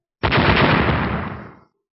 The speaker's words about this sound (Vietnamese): Một tiếng nổ vang trời, thân hình Vô Trần đạo nhân